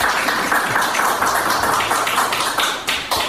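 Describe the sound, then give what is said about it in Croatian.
An audience applauds at a wind festival event linked to a sailing club and a maritime faculty in Kotor; the brisk clapping grows sparser toward the end, leaving a few separate claps. “Tako da bih jedan aplauz za to što smo postali dio ovog festivala.”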